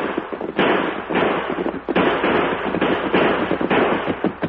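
Gunshots crack out in a rapid, loud barrage of many sharp, noisy bursts during a shootout with pursuing riders, overlapping with little pause.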